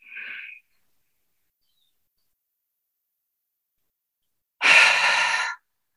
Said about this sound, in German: Atmet ein. tief und lange aus. Einatmen.